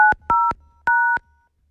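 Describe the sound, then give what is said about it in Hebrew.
Keypad tones sound as a code is pressed on a new mobile phone: three clean dual-pitched beeps, the first short and the next two longer, separated by clear gaps with no talk. “זה קוד של טלפון נייד חדש שנמצא באולפן. בואו נשמע את הלחיצות”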